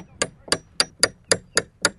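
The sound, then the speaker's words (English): Hammer strikes on a chisel as a carpenter works on his boat beside a reservoir: seven sharp, evenly spaced metallic knocks in a steady rhythm, each with a bright clang. “He's working on his boat with a hammer and chisel next to the reservoir.”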